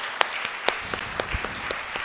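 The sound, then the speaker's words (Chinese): Church audience giving applause to Jesus, a modest patter of clapping in which individual sharp claps stand out at irregular moments over a softer continuous bed. “我哋俾掌声耶稣好嘛？”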